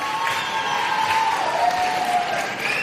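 A theatre audience applauds at the Gran Teatro Falla, with dense, steady clapping from many hands that holds at an even, fairly loud level throughout.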